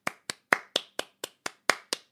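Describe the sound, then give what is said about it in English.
Hand clapping as applause: ten sharp, crisp claps in an even, steady rhythm, each one brief with a quick decay and silence between them. “Applause!”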